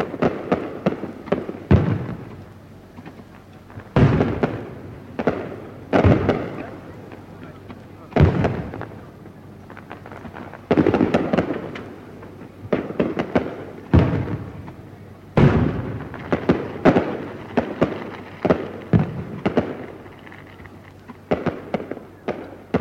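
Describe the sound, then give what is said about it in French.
Fireworks bursting over the Sumida River in Tokyo in 1964: many loud, sharp bangs and crackling bursts come in an irregular series, some clustered close together, with rumbling tails between them. “C'est le feu d'artifice sur les bords de la Sumida que vous m'aviez promis.”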